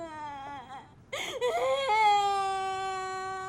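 A young child cries for its mother, starting with strained whimpering sobs, then breaking into a louder, sustained high-pitched wail.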